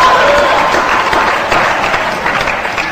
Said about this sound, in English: you guys at Elliott House, give yourself a nice round of applause